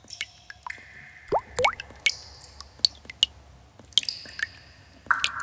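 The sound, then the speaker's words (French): Water drops dripping inside an underground cave, many sharp, irregular plinks and plops that vary in pitch, each separated by near silence. “Dans la grotte, on n'entend que les gouttes d'eau.”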